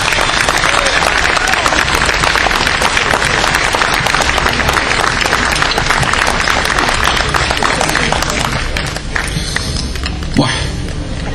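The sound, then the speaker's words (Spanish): Crowd applause at an outdoor rally in a city plaza: loud, dense clapping and crowd noise that continues without a break, then thins and grows patchier near the end. “Los aplausos que me gané por culpa tuya.”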